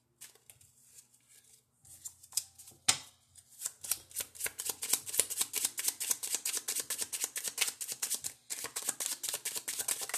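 A tarot deck being shuffled: many quick, crisp card flicks and riffles in a dense, steady patter, with a brief pause near the end and no talking.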